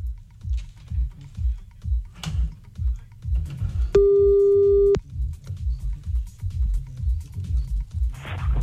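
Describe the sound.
A telephone ringing tone sounds while a call is placed: one steady, pure tone about a second long rises over continuous rhythmic tapping and clicking that sounds like keyboard typing.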